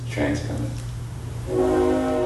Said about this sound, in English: Ravi Coltrane interrupted to point out the whistle of a freight train drifting up from the railroad tracks that run behind the house.